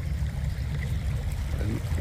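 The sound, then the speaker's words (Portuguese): Water gushes from a burst pipe on Avenida Joaquim Inácio, a street, as a loud, constant rushing and splashing that stays even throughout. “Gente, cano estourado aqui na Avenida Joaquim Inácio. Olha a dimensão da água.”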